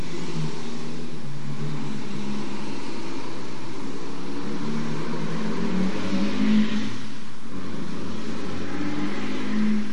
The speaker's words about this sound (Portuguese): deixa eu passar esse caminhão barulhento aí, ó.